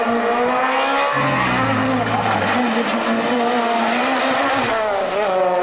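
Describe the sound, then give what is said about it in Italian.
A car accelerating hard, its engine a loud, continuous roar with a harmonic whine that shifts in pitch as it revs, sustained throughout without pause. “Ammazzo quanto tirava sta macchina.”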